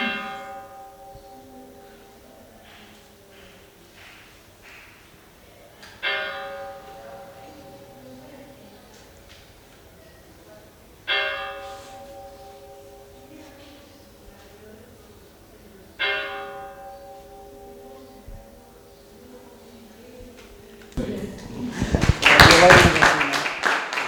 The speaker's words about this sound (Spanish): pues daban solo 4 campanadas separadas para no molestar mucho.